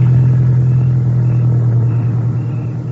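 Car engine rumbling steadily while being driven, a loud, even, low drone that holds without change throughout, with no talk over it.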